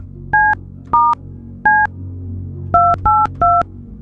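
Six touch-tone beeps as a phone number is dialed to call a contest winner, clean and loud, spaced irregularly as three single tones and then a quicker run of three, over a faint low background hum.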